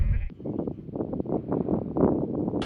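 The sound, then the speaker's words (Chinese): Bleating from a flock of about 500 Northern Tibetan sheep on a high pasture of the Qinghai-Tibet Plateau, nearly 3,800 metres up: many overlapping calls form a dense, continuous chorus. “哇，这全是您的羊吗？ 是是。啊，这是北藏羊。”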